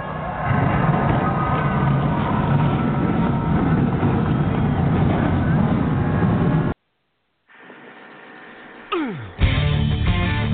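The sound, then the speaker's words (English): Race car engines starting at a stock car race give a loud, steady roar. The roar cuts to a brief silence, then engines rumble back with one sharp revving sweep before a full, loud roar returns. “On behalf of General Tire, where anywhere is possible, drivers, start your engines!”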